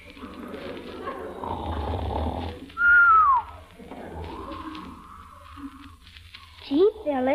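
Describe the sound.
A man snores heavily while sound asleep, with two long rasping breaths, each followed by a high whistling tone that slides downward, and a few quick wavering whistles at the end.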